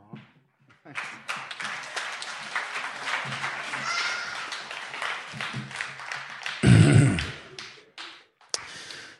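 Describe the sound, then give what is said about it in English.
A church audience claps for a reader coming up before the sermon, a dense patter of hands that holds steady for several seconds, with a louder burst near the end. “So they're going to clap for you too.”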